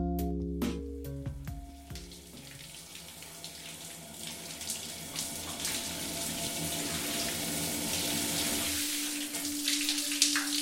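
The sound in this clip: A shower runs in a steady, hissing stream of falling water. Sustained electronic musical tones sound at the start and fade out early.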